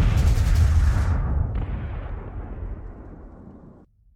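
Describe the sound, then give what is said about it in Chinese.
Dense battle gunfire from machine guns, rifles and pistols at the 1943 Battle of Changde: a loud, continuous roar of overlapping shots and blasts with no voices, easing slightly before cutting off near the end. “轻重机枪、步枪，连同长官的手枪一起开火了。”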